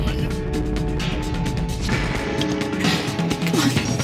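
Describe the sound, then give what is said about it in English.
A crash effect marks a spaceship struck by a galvanic charge: dense, rumbling impact noise with crackling, metallic bursts that keep churning for the whole stretch. “Lightning! Get up out of here! We've been hit by a galvanic charge! Our point defenses are offline!”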